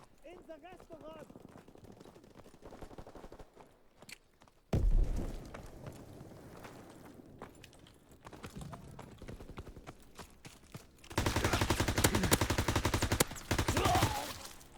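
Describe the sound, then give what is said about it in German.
Gunfire in a Battlefield-style shooter video game: softer clattering and one sudden loud burst early on, then sustained loud bursts of rapid automatic fire near the end. “Ich habe aufgehört zu schießen, weil ich dachte, der Typ ist tot.”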